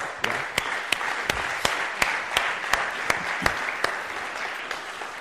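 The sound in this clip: An audience at a church event applauds two volunteers called up front: sustained, even applause with a few sharp, distinct claps standing out throughout.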